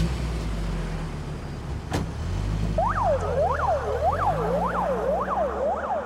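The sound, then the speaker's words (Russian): An ambulance pulls away after stretchers are loaded and its doors shut. A low engine rumble and one sharp thud come first, then a rapid, repeated rising-and-falling siren wail over steady road noise. “Два медработника грузят носилки в машину скорой помощи. Закрывают дверцы. Машина уезжает.”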